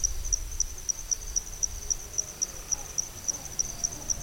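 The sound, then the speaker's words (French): Insects chirp at night in the wet season: a faint, high-pitched series of many evenly spaced, rapid pulses repeats steadily over a low background hiss, with no voices. “Donc on entend une biophonie qui est vraiment constituée quasi exclusivement d'insectes.”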